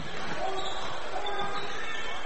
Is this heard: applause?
no